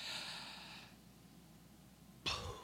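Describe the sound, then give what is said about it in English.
An audience takes a deep breath in together during a talk by a missionary: a soft, broad airy hiss that fades after about a second, then near silence, with a short, sharper breathy burst at the end. “Everybody take, sit up straight for a moment. Take in a deep breath. Just go.”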